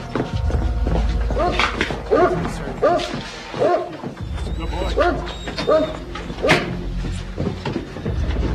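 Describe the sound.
A dog barks in a steady series of sharp, evenly spaced barks, about every half second, over a dense, continuous background during a house search.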